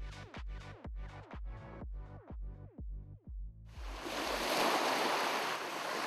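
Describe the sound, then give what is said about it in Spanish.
Ocean surf rushes in as a steady, broad hiss of breaking waves, entering after a rhythmic run of many struck tones and then holding a fairly even level to the end. “La marea se ha calmado.”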